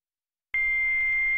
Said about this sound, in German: Eine Nachricht auf dem Anrufbeantworter.